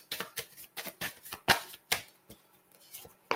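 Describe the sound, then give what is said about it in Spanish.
Tarot cards being shuffled by hand, producing many soft, irregular slapping and riffling clicks at an uneven rhythm. “Vamos a mezclar otra vez para complementar el mensaje.”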